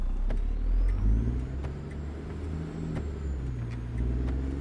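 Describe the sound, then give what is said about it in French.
A car drives slowly on a snow-covered road with few other vehicles around. Its engine gives a continuous low, fairly faint hum with a steady rumble throughout. “roulait lentement sur une route recouverte par la neige, où peu de véhicules circulaient”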